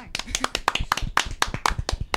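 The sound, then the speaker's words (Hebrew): Applause from a small group claps hands in a quick, uneven patter of sharp slaps, fairly loud and steady for a couple of seconds, with a voice briefly audible among the claps. “מה מגיע לו? כפיים.”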